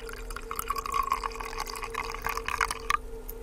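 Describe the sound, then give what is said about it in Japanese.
Hot water, cooled in a ceramic vessel, pours into a teapot holding tea leaves: a steady, soft liquid trickle with small splashes, running continuously over a low background hum. “これポットから直接じゃなくて、陶器の入れ物でお湯を冷まして、うん、それを茶葉を入れた急須に入れていただくということですね。”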